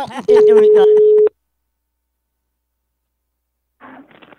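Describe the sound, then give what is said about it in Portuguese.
A telephone line tone plays as a call is placed to a woman for a prank: a single steady, loud tone of about one second with a voice over it, then silence before another voice comes in. “Eu vou ligar agora pra Ondina”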